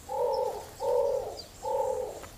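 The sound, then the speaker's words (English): Three soft, low cooing calls from an imperial pigeon on an island with Arenga palms. Each coo is a smooth, double-toned note of similar length, spaced evenly with short pauses, heard faintly and alone. “The palm relies on birds like imperial pigeons to spread its seeds around the island.”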